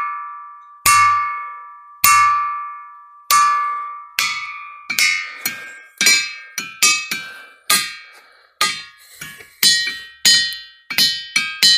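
Objects struck with hammers give bright ringing tones, many strikes in a row, each a sharp attack and a slowly fading ring. The early hits are spaced apart, then the strikes come faster and overlap.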